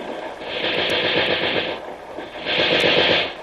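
Machine-gun fire in short bursts: two sustained stretches of rapid, rattling shots, loud and dense, separated by a brief lull.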